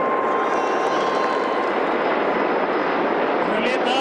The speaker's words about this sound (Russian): Ми-26 и 4 вертолетов Ми-8.